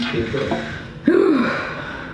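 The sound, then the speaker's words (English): A deep breath, heard as one sharp gasping intake about halfway through with a brief voiced sighing edge, preceded by a quieter, low murmuring vocal sound. “Deep breath.”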